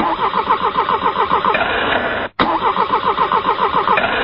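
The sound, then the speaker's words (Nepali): A cheaply made generator engine being cranked without catching: loud, rapid, rhythmic chugging of the starter in two long bursts split by a brief pause, with no other sound. “Sir, यो generator नै start भइरहेको छैन।”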